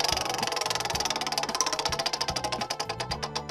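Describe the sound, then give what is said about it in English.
Prize wheel spinning for a winner draw in a game: rapid, even ratcheting clicks that gradually slow and spread apart as the wheel loses speed. “So let's spin the Wheel of Magical Goodness!”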